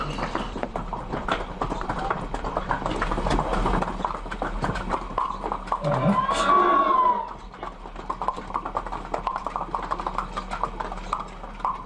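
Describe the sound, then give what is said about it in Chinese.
Irregular hoof clops of mules and horses at a busy mule and horse market in Weishan town, heard over a steady crowd hubbub, with a brief louder swish partway through. “在茶马古道消失的今天，微山的骡马市场依旧兴盛，交易量仍然很大”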